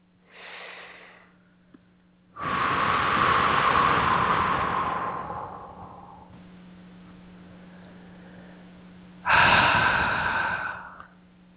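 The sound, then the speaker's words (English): Slow, deep breathing with no talk: a short soft breath, then a long, loud, rushing breath that tapers off over several seconds, and later another strong breath, all over a faint steady hum. “Nice deep breath.”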